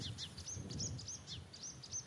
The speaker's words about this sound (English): You can hear a background chorus of reed warblers.